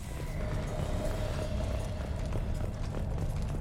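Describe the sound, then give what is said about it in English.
Footsteps going up a flight of stairs: a quick, even series of treads repeating steadily over a constant low rumble, with no voices. “Going up some stairs.”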